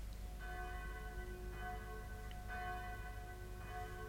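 Church bells ring out over a green hill on a spring morning, about four slow, evenly spaced strikes whose rich tones hang on and overlap, fairly faint throughout.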